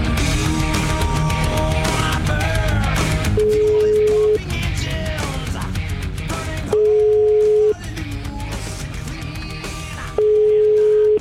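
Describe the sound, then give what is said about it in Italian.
Ringback tone of an outgoing phone call: three steady, even tones, each about a second long and spaced at regular intervals, sounding over background music with no talk. “Chiamiamo Berlato, dai.”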